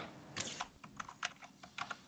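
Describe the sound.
A computer keyboard clatters as a message is typed: many quiet, irregular key clicks in uneven bursts, with no talking.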